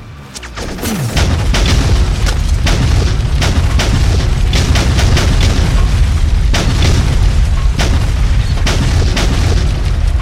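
Bombs strike a target in an airstrike, creating a loud, continuous roar of heavy explosions with many sharp blasts and rumbling booms layered throughout.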